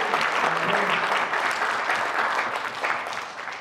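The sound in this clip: Congregation applause in a church worship service: vigorous, dense clapping that stays loud for most of the stretch before thinning slightly toward the end.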